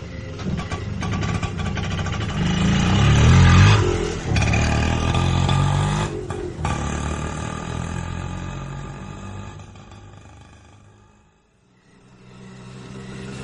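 An auto-rickshaw engine starts and runs with a loud, buzzy mid-pitched rumble that swells over the first few seconds and then holds steady. The engine drops off sharply near the end before picking up again.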